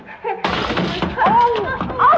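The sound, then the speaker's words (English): A crash as someone trips over a child's toy and falls: a sudden broad clattering burst lasting about half a second, followed by voices crying out. “I just tripped on one of Johnny's toys.”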